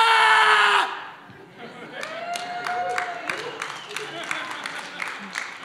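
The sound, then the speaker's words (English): A crowd shouts a loud Shabak chant, starting with a strong, bright burst of massed voices, then continuing as a rougher din of yelling and cheering punctuated by sharp, repeated accents. “What kind of sound do you think they're making right now? You know, is it kind of like, yay? Or is it like, yeah?”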